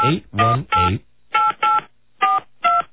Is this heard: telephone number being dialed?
yes

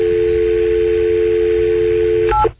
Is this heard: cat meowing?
no

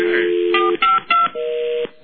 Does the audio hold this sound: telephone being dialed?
yes

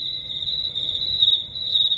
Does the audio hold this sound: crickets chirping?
yes

